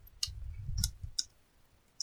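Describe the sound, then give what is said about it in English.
A few sharp, faint clicks as someone writes something down in notes. They are spaced unevenly with pauses between them over a low rumble. “Wait, I'm writing this in the notes.”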